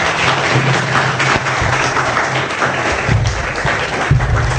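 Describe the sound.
An audience claps to welcome a speaker to the stage. The applause is steady and dense, with many hands clapping continuously at an even level for nearly five seconds.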